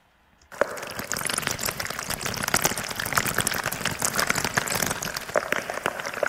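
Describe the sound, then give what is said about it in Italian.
A mountain stream captured underwater with a homemade hydrophone: dense, continuous bubbling and crackling water noise that starts abruptly after a brief silence and stays steady and fairly loud throughout, with no voices. “Questo è il suono di un ruscello che ho catturato nelle mie passeggiate in montagna. È registrato in un modo un po' particolare grazie a un idrofono”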